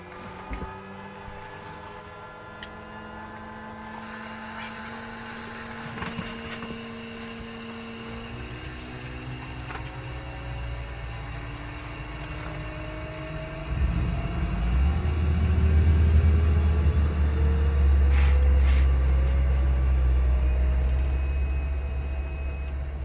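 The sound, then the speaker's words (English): A small propeller aircraft takes off from a red earth runway in Uganda, bound over Lake Victoria for Moroto. Its steady droning engine hum swells noticeably louder about two-thirds of the way through and stays strong to the end. “As we make our way down the red earth runway, we ascend into the air and fly over Lake Victoria, and then make our first stop at Moroto.”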